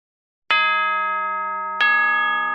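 A bell strikes twice to mark class time, each strike a bright, ringing tone with many overtones that hangs on and slowly decays, the second strike landing about a second after the first fades slightly.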